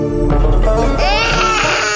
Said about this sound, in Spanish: Ya, ya no llores, chiquitito.